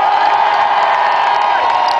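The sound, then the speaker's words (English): A crowd at a rock concert cheers and applauds a tour manager introduced on stage. The noise is loud, dense and steady throughout, with clapping and whoops blended into one continuous roar. “everyone, round of applause for Peter”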